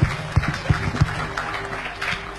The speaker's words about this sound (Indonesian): Teman-teman, sebelum saya mulai, boleh tak tepuk tangannya dulu? Biar semangat.